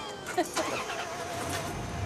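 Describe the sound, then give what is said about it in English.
A van's engine starts and the van pulls away, a brief, fairly quiet run of engine sound with a couple of short knocks near the start. “Marie smiles and watches Rocky drive away.”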